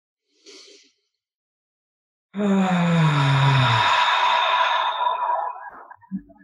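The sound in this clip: A deep breath is drawn in and then let out as a long, voiced sigh during a guided somatic breathing workshop. A brief soft intake comes first, then a sustained exhale whose tone slides downward before tapering away.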